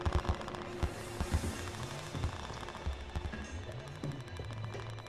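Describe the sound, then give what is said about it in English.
Faint bombs and gunfire sound far off in a war-zone sound effect, with irregular bursts of pops, rattles and dull thuds that stay low and quiet throughout. “Still faint in the background, but further away now, you hear the bombs and the guns.”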